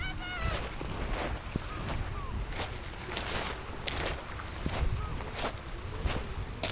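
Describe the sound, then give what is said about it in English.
Footsteps crunch over stones, seashells and dried seaweed, a long run of soft, scratchy steps at an uneven pace over a constant low background hiss. “Walking over the stones, seashells, dried seaweed.”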